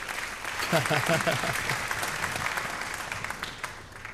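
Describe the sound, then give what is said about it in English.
Audience applause fills a live concert hall in Germany, a dense, steady crackle of many hands that holds at an even level, with a voice briefly heard over it near the start. “That's an audience.”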